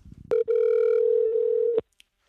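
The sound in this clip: A telephone dialing out to a call-in listener produces a steady, mid-pitched electronic tone. The tone holds for about one and a half seconds after a brief catch near its start, then cuts off cleanly, followed by one faint click.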